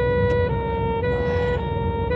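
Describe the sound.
A siren blares from a moving vehicle, a loud, steady, harmonic-rich tone held throughout with only slight shifts in pitch, over a low rumble.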